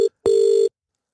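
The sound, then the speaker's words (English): Telephone ringback tone as an outgoing call waits to be answered: a clipped beep followed by a longer, steady, mid-pitched electronic tone, clear and alone, then silence. “Come on. Answer the phone.”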